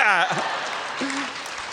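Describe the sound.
Audience applause and cheering for twenty-year-olds at a live comedy-style show. A loud shouted voice cheers at the start over a steady wash of clapping, and a brief voice follows midway.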